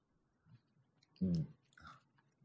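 Chewing on a chocolate ice-cream-flavored gummy bunny candy: faint soft mouth sounds, then one loud squishy bite-and-chew burst in the middle, followed by a smaller second chew before quiet returns.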